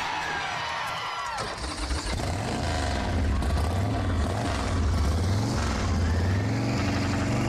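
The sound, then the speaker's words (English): A custom Indian motorcycle with a 100-inch engine starts and runs, its deep, loud rumble rising and falling in pitch as the throttle is worked, over a constant rough mechanical roar. “The motor is a 100-inch Indian motor. Never have a problem with these motors. They run great, they sound great. You want me to fire it up?”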